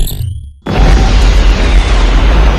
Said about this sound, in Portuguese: A explosão abala o cinto.